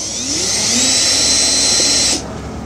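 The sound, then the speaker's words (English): A power driver backs screws out of a Honda light assembly with a steady, high-pitched whirring whine. The whine runs for about two seconds and then stops abruptly. “Okay, so I've removed the two screws. And now, this light assembly on the Honda is held on”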